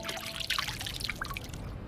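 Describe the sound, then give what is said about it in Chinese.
Excess oil rendered from meat during stir-frying is poured off, making a faint, continuous trickle of liquid with light splashing and dribbling throughout. “把这个油逼出来以后啊，它外焦里嫩嘛。咱们倒入这个多余的油。”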